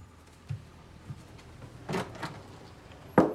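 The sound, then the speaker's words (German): Door handle pressed down on a room door off a hallway: a few soft knocks and rustles, then a louder, sharp click near the end, with no speech. “kommt durch den Flur und drückt auf die Klinke.”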